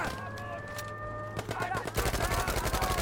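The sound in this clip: Rapid gunfire from the video game Battlefield V, a dense run of sharp, loud shots in quick succession like automatic weapon fire, preceded by a steadier electronic tone.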